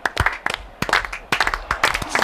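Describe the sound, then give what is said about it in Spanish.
Scattered handclaps from a studio audience, a slow-building round of applause. A few irregular claps at first grow somewhat denser and louder toward the end, with faint voices mixed in. “os puedo pedir un aplauso. No sabéis el motivo todavía, ¿eh? No, pero un aplauso de estos que empiezan, de los que empiezan poco a poco.”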